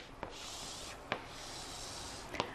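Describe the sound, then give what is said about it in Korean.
A pen or marker sounds faintly while a velocity-time graph is drawn by hand. Three soft, sharp strokes or taps stand out over a low, steady hiss. “자, 그럼 이걸 토대로 그대로 동일하게 그래프를 그려볼게요.”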